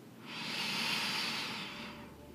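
A single long, deep inhale during a guided chakra-balancing breathing exercise, palms out to the side: a soft, steady airy hiss that swells, holds for over a second, then fades.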